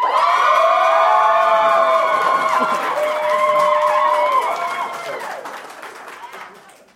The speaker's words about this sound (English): 1 point for Team Hermione over there for the awkward groans.